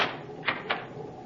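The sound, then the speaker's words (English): Two quick, faint clicks of a cabin door being locked aboard a Navy cruiser, set close together over a steady background hiss. “Certainly. You may lock the door now.”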